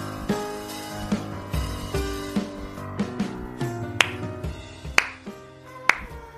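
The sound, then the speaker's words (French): Slow, ironic applause: single claps land one after another at an even, unhurried pace, each a sharp crack over a sustained musical background. “Et vous ne trouvez pas ça un peu daté, l'applaudissement ironique”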